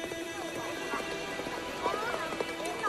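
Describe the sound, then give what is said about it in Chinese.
Horse hooves clip-clop in a steady, rhythmic beat as a rider approaches on horseback, moderately faint against a continuous tonal background. “一阵马蹄声由远而近，是哈图的儿子保利根骑马过来”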